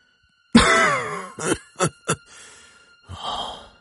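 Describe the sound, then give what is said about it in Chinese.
Hoarse coughing from an ailing old man lying in bed under a quilt: a drawn-out, strained groaning breath, then three short, sharp coughs and a breathy exhale. “那老人咳了很久，这才回答老妇人的问题。”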